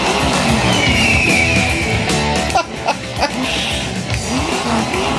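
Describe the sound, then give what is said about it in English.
Engine of a 1968 Cougar firing up and revving, a loud, dense roar with shifting harmonic tones that holds steady, briefly dips, then surges again. “It's the sound of your 68 Cougar firing up.”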